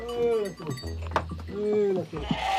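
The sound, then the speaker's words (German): Sheep and lambs bleating in a stable in a valley: two drawn-out, wavering bleats separated by a short gap, with a person talking over them. “Und geht noch immer jeden Tag in den Stall zu den Lämmern, die im Tal geblieben sind.”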